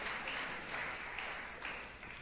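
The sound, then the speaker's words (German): Faint hand clapping from a church audience during a bilingual English-German service, forming a soft, continuous patter with gentle swells that recur at a steady pace throughout. “Clap your hands once more. Wir können klatschen zu dem Herrn.”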